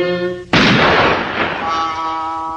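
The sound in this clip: A single loud gunshot bursts in abruptly, its noisy blast decaying slowly over about two seconds while a steady tone lingers underneath.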